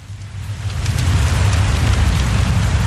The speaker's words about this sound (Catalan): la primera opció és una llar de foc amb el so de la pluja de fons que sona així